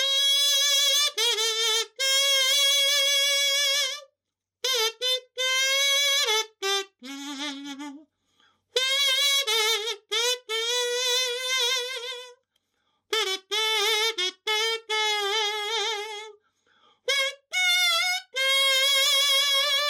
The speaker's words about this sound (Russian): дуть в расческу не получится. То есть, необходимо на ней петь. Петь нужно высоким голосом, так называемым фальцетом. И тогда вот звук примерно такой получается.